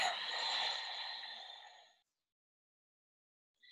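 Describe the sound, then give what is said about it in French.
A deep, slow exhale emptying the lungs during a guided breathing exercise: about two seconds of soft, breathy rushing air that gradually fades, followed by silence. “Expirez comme si vous vouliez vider vos poumons au maximum. Encore une fois, inspirez. Retenez. expirez.”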